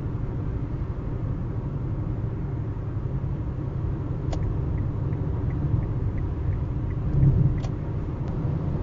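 A car drives at night on the I-5 highway, giving a steady, low rumble that stays even throughout, with a few faint ticks on top.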